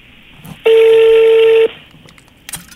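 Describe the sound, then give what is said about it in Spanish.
A touch-tone telephone keypad beeps as a number is dialed, giving one loud, steady tone lasting about a second over faint background noise. No one speaks. “en este momento vamos a marcar para ver si don Miguel Ángel Ballinas está libre”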